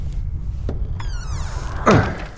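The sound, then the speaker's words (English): A door being opened: a soft scraping glide, then a solid thunk near the end, over a low rumbling background. “The door is open, to your left.”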